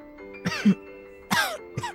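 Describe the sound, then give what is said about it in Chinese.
An ill elderly woman coughs three times, hoarse, throaty bursts with short pauses between them. The second cough is the longest and the last is the shortest. “咳了几声”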